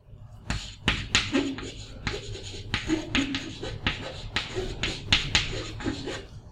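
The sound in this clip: Scratchy strokes of writing, a run of short, quick, rhythmic scrapes that are fairly faint and irregular.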